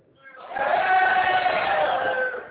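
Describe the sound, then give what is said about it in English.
A live studio audience cheering and whooping together, one loud sustained burst of many voices that swells in quickly and tails off after about two seconds. “we are live right now with an audience. Can you prove that to”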